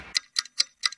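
A clock ticking with four crisp, evenly spaced ticks in about one second, each a short bright click against silence.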